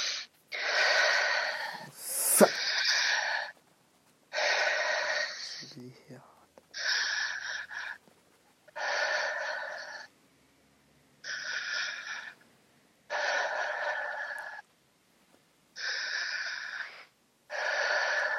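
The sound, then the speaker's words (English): Heavy breathing in and out: a long series of loud, hissing breaths with short pauses between them, keeping a steady, even rhythm. “Just breathe in and out 5 times heavily.”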